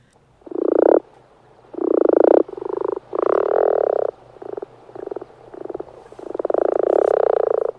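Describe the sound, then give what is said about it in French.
Male common frogs croaking in a pond: low, soft purring croaks in several bursts of varying length, separated by short pauses, with a longer run of croaking near the end. “Donc c'est le chant de la grenouille rousse.”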